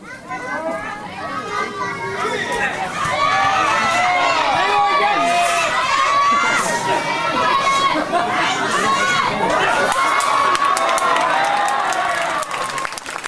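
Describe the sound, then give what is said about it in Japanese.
Crowd cheering and shouting during bouts at a nighttime Shinto shrine offering sumo tournament at the Johoji festival. A dense, continuous roar of many excited voices, including high-pitched ones, grows louder after the first few seconds and stays loud to the end. “こちらは15日日曜日の夜に行われた新名社奉納相撲の様子です。白熱の取り組み、盛り上がる観客、熱狂、あの場面は忘れられません。”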